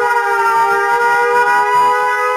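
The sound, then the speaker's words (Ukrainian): Air raid siren sounding a loud, steady, sustained tone rich in overtones, holding an even pitch and volume throughout the stretch without pause. “Увага, громадяни! Повітряна тривога!”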